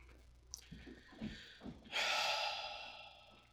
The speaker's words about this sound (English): That was my scary breath.